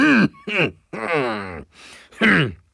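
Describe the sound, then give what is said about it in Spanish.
Someone sitting in a Lincoln Aviator clears their throat, with several voiced, groaning bursts of varying length separated by short pauses. “Ay, perdón. Es que tenía algo en la garganta.”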